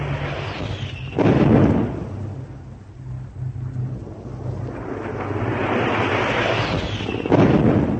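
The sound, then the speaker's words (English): Bombs explode in a direct hit on a destroyer during an air attack on a naval formation. Two heavy, booming blasts come several seconds apart, joined by a continuous low rumble. “One of the destroyers receives a direct hit from two bombs.”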